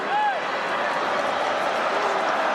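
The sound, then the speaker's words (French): Football crowd roaring in the stands of the Vélodrome stadium during a match: a dense, steady wash of many voices, loud and continuous, with a couple of brief whistles near the start. “Les clameurs qui montent ici dans les travées du Vélodrome. Ça monte, ça monte, ça monte. Tout le public est prêt à exulter”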